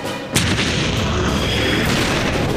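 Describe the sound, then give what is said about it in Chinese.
A German field gun firing during a fight with Allied tanks: one sudden heavy blast, then a loud, sustained roar of noise that continues to the end. “德军的野战炮突然开火，”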